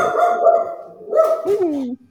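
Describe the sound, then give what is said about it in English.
Dog barking and whining during a tabletop fantasy role-playing game session: two loud, sustained, tonal bursts, the second ending in a falling whine. “Yes, puppy dogs.”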